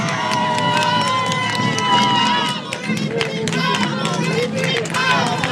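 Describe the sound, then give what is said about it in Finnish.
A crowd at a bowling hall in Äänekoski cheers and claps loudly, with shouts and voices mixed in, dipping briefly midway before rising again. “Me saatiin hienot aplodit. Voisiko saada uudet, kun nyt ollaan radiolähetyksessä?”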